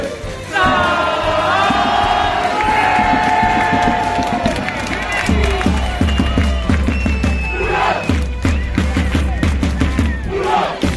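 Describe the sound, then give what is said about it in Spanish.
A crowd in the city of Burgos celebrates a basketball championship win in the Basketball Champions League. Loud, dense shouting and rhythmic chanting continue throughout, with cheers rising and falling. “Este es el sonido de la fiesta, de la celebración que se vivió anoche en la capital burgalesa”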